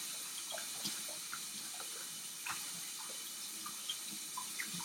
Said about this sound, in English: Scrub, scrub, scrub, scrub. Really get it in there.